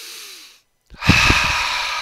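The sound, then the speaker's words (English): A big, deep inhale is taken during a guided collective breath at a worship gathering. After a brief silence comes a loud, rushing intake of breath that swells quickly and holds strong to the end. “let's just take a big collective breath together and let go of everything that's been going on this week. Just a nice big inhale with me.”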